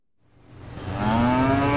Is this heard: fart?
no